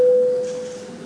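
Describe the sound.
A single steady electronic tone sounds to signal a vote in the Latvian parliament, a clean mid-pitched note that holds briefly and then fades away.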